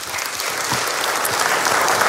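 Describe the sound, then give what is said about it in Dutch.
Applause for a guest: steady, dense clapping from a group, holding at an even, fairly loud level throughout without a clear start or finish. “Graag je applaus voor Jasper Poisson.”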